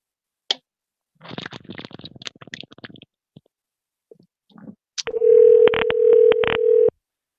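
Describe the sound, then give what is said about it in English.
Telephone dialing to call someone back: a couple of seconds of scrappy clicks and rustling handling noise, then a loud, steady line tone held for about two seconds, broken by a few short bursts. “Well, let's give him a call back. Maybe he'll wake up.”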